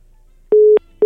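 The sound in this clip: Busy tone after a dropped phone call with a journalist: a steady, single-pitched electronic beep, then silence, then the start of another identical beep, loud and alone.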